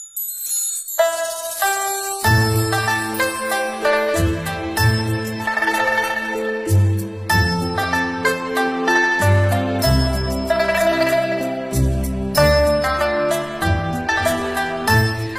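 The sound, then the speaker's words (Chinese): Ancient Chinese bianzhong bronze chime bells, recorded in 1986 at a museum in Hubei, play a melody. Many struck, ringing tones follow one another at a steady pace, fairly loud and continuous throughout, with no talk. “刚才放的那段录音编钟的声音啊”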